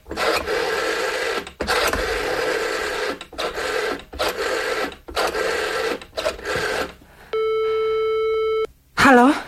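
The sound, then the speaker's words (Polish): A telephone tone sounds as someone phones neighbours to get an ambulance called. Talk fills the first part, then a single steady, buzzing tone holds for about a second and a half, and a short wavering tone follows. “Dzwoniłam się do państwa Madejskich.”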